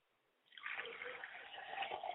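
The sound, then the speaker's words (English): Liquid poured out as a libation toward the east during a ceremony, a soft, steady trickling stream that starts after a short quiet moment and runs evenly to the end. “Ladies and gentlemen, look towards the east as we pour libation towards the east, and we say, Ashe.”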